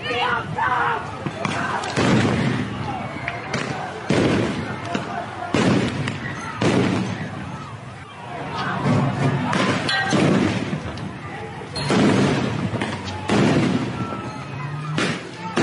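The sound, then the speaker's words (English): Police tear gas grenades bang at a street protest in Minnesota, with many sharp, heavy booms spaced a second or two apart over constant crowd noise and voices. “Cops responded with tear gas grenades.”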